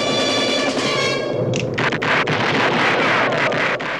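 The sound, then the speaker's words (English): Gunfire from four gunmen in a Western corral shootout: many sharp shots crack in quick, uneven succession through the second half, over a constant windy rush. “The four gunmen open up.”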